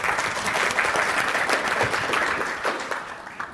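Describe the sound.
Conference applause greets two speakers walking on stage for a design talk: brisk, dense clapping that holds steady at first, then tapers off in the last second or so.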